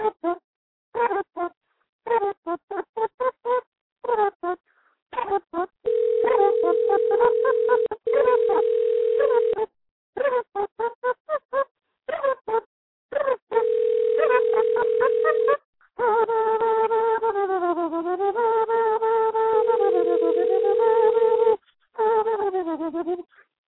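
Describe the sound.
Telephone dialing tones sound as steady, sustained beeps that alternate with stretches of talk, then give way to a longer warbling tone sequence near the end.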